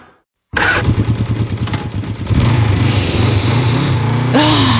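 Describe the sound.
A motorcycle engine fires up into a loud, rough, throbbing run that grows fuller and steadier, with a quick rising rev near the end.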